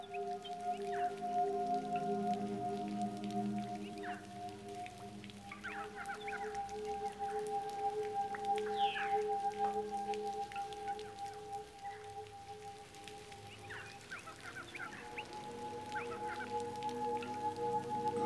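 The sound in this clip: Rain from a brief downpour falls steadily throughout, a continuous hiss with scattered drops, over a low tonal hum and faint intermittent bird calls.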